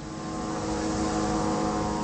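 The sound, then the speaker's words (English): An unmanned Israeli drone hovers above the alleyways of a refugee camp, giving a steady, unbroken mechanical buzz with a strong tonal hum that stays level throughout. “In Jabalia, an unmanned Israeli drone hovers in the sky above the worn of alleyways that makes up the refugee camp.”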